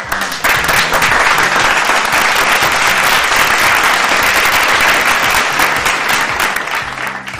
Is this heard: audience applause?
yes